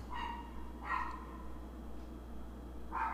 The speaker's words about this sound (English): I guess the dogs are trying to have a conversation with us.